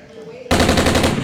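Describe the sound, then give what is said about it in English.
Rifle gunfire sound effect, rapid fire: after a brief quiet lead-in, a loud, continuous rattling burst of many quick shots in a steady, even rhythm. “Give me the rifle, Stinger.”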